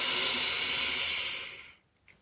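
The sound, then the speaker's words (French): A deep inhaling breath taken during a seated twist in a morning meditation: a long, airy, hissing intake that holds steady, then tapers away into quiet, followed by a short faint sound at the very end. “Ah oui, inspirez.”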